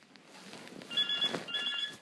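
Telephone ringing with an electronic warbling tone in two bursts separated by a short gap, loud over faint background noise.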